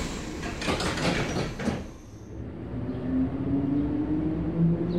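Sliding doors on a metro train: a broad hissing rush for the first two seconds fades into a steady rumbling drone with a faint tonal hum.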